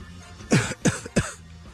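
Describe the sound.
A nasty cough from a sick person: three harsh, throaty coughs in quick succession, each a loud burst, with no talking.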